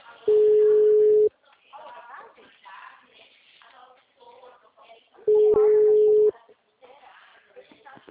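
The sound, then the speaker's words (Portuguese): Telephone ringback tone as a call is placed: two steady one-second tones about four seconds apart, with muffled voices talking in the gaps between them. “Não, tá ligando.”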